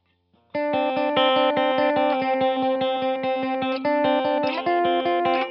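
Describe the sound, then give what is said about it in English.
Electric guitar played through an amp on the bridge pickup with no effects: a bright, clean, rapid, even run of many picked chords that shifts chord a couple of times toward the end. “And so here's what that same thing would sound like. Again, what's called the bridge pickup, or the furthest away from the middle of the strings.”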